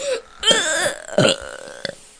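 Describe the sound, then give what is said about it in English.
A voice imitates a burp while someone pats another's back to bring one up: a loud, drawn-out, croaking eructation with a few shorter rough bursts. “Uncle Grandpa said, "Hey, can you help Mr. Gus burp?" I think he said that. And then he was patting his back, and then he was just like,”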